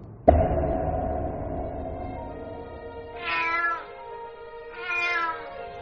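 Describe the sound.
A cat meows, starting with an abrupt, long, low drawn-out cry and followed by two higher, shorter meows spaced well apart, with no voices.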